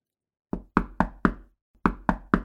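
Knocking on a door: four firm, evenly spaced knocks, a short pause, then three more in the same steady rhythm, each a sharp, loud, woody thud with a quick decay, heard alone with no voices.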